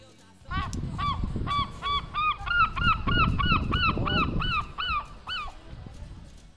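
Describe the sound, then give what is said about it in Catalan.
A seagull recorded in the United Kingdom gives a rapid series of many loud, harsh, nasal calls at an even rhythm, sounding alone without voices. “en aquest cas he de dir que sí, és una gavina més enregistrada al Regne Unit.”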